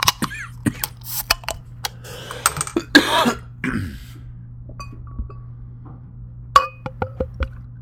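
Glass clinks and clicks come from handling and opening a 22 oz bottle of AleSmith beer. Many sharp, bright taps are scattered throughout, with a short noisy burst near the middle and a cough.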